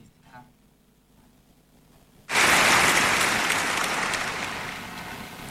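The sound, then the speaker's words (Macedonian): Applause celebrating Arsenal winning the English league title. It bursts in suddenly after a quiet stretch, then continues loud and dense, easing slightly toward the end. “Аплауз за сите оние кои што... Ете, навиваат за Арсенал”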